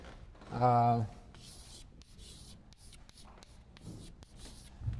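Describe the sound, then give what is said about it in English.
Handwriting a word, the pen scratching in faint short strokes and squiggles broken by brief pauses. A short voiced sound comes just before the writing begins. “I'll write the word.”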